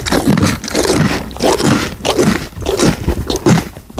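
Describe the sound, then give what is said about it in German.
A pony chews its food loudly, making repeated crunching, scraping bites in a steady rhythm of roughly two chews per second. “Da wird aber laut gekaut. Kannst du nochmal, bitte? Ronny Pony, möchtest du noch was fressen?”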